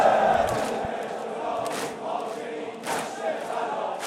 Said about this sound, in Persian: خدا وکیل این صدای این جمعیته.